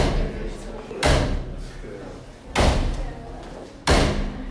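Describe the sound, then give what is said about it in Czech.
Three loud slams of a dressing room door backstage at an awards ceremony in Hradec Králové, spaced about a second and a half apart, with murmuring voices in between. “Tak takhle bouchají dveře od čatny Mekyho Žbírky. Pořád tam někdo chodí, zase vychází, dolaďují se detaily, ale my počkáme.”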